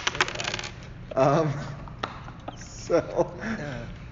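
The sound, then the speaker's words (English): Dice clatter across a table during a Dungeons and Dragons game: a quick rattle of clicks at the start, then a couple of sharp knocks later, with voices talking over parts of it. “Loud dice rolling.”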